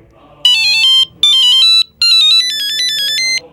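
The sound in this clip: An electronic telephone ringtone plays loudly in three bursts of bright, warbling tones, the third burst longer than the first two, with no other sound over it.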